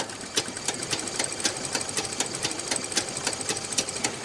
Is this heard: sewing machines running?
yes